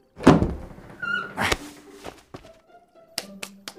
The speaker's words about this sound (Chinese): 然后推开门